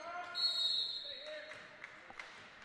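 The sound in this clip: A basketball is dribbled on the court during a men's college basketball game, giving a few sharp, quick bounces near the end over a low hum and tonal arena sounds.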